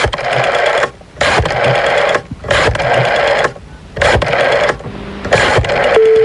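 A telephone ringing: five loud buzzing ring bursts, each close to a second long, separated by short gaps, heard alone and ending with a steady tone.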